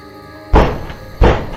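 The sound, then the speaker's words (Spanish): Two heavy, dull knocks on a door, struck about a second apart as someone tries to get an answer, each a low, solid thud with a short decay and no voices. “Por más golpes que Juan dio, aquella mujer parecía no contestar.”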